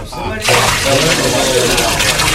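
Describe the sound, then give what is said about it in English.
Water gushes and splashes as barrels are poured over a bullock, wood and an altar, a steady broad rushing wash that starts abruptly and continues loudly to the end, with a voice speaking over it. “Pour four more barrels of water over the bullock, the wood, and the altar.”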